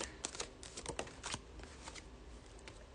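Tarot cards are shuffled for a reading, a quiet, steady stream of rapid papery riffles and flicks that soften toward the end.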